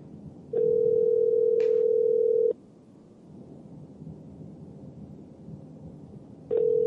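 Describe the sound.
Ringback tone of an outgoing telephone call that goes unanswered: one steady, low, buzzing ring lasts about two seconds, followed by a quiet pause, and a second ring starts at the very end.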